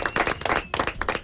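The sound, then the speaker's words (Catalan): An audience applauds all the participants after a round of familiar games. The clapping comes in short, uneven bursts and is brief and moderately quiet. “Un aplaudiment per tots.”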